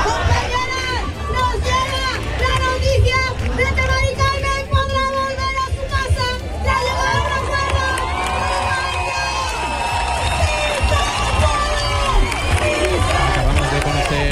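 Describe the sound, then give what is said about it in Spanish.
A protest crowd in Seville chants a slogan and cheers without pause, a dense, loud mass of voices that sustains throughout. “todo mientras el público canta "No nos vamos, nos quedamos"”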